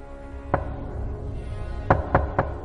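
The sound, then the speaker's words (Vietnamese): Knocking on a door: one knock, a pause, then three quick knocks in a row, each a short dull thud over a low steady background hum. “Tôi vẫn không nhận được câu trả lời ngoài những tiếng gõ cửa chua chát.”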